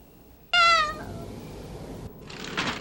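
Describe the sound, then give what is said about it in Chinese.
A cat gives a single loud, high, tonal meow that fades quickly, followed by quieter background noise. “你如果再叫的话，就会被妈妈发现的。赶快回家去，听见没有？啊，好厚脸皮的猫。”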